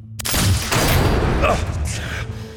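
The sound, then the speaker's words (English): Loud gunfire erupts in a confrontation as bullets strike a person, a dense, booming burst of noise that starts abruptly and stays heavy and rumbling for the rest of the moment. “The first bullet hits me in the chest, sends me staggering back a step. The next one cannons into my side, drops me to my knees.”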